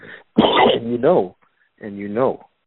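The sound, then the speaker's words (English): A voice imitates the dry cough of a sick, lethargic alligator that struggles to breathe, giving two rough, throaty bursts with a short pause between them. “Which, by the way, they'll have a dry cough”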